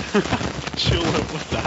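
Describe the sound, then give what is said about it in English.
Raindrops fall onto a microphone in a dense, continuous crackling patter that fills the whole short stretch without pause, rough and fairly loud throughout. “I think his roof's caved in and it's just raindrops falling on his microphone.”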